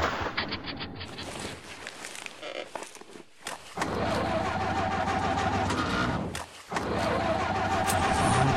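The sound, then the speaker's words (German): A car engine running rough and stalling, its steady mechanical drone sputtering and cutting out briefly twice before catching again and running on loudly. “Der Motor ist abgeregt. Schluss, aus, wir sind am Ende.”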